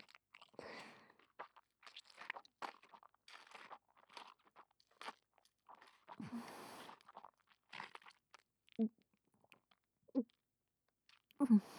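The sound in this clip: Chewing and crunching of sticky, slimy, fishy food: many irregular soft bites, smacks and wet crunches, mostly quiet, with a few louder low thuds toward the end.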